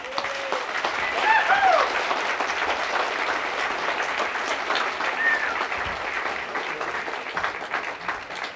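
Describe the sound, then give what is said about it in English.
An audience applauds steadily to welcome a performer onto the stage, a dense, sustained patter of clapping hands that holds at an even level throughout. “Let's really get behind him and listen to him sing close. Give him a nice hand, Doc Watson.”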